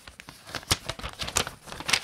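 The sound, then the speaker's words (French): An envelope being torn open carefully: a run of short, dry paper rips and crackles in irregular bursts, several louder than the rest, with small pauses between. “Je déchire l'enveloppe avec précaution”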